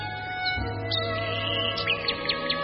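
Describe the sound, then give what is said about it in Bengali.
A bird calling from somewhere in the distance: a few faint, short, high chirps scattered over a steady low hum. “দূরে কোথাও একটা পাখি ডাকছে, রোজই ডাকে, আজ তার ডাক আলাদা করে শুনতে পাওয়া গেল এই যা।”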